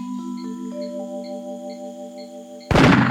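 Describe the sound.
A hunter's rifle shot bursts in at the end, a single sudden, loud and sharp crack that follows several seconds of sustained musical tones.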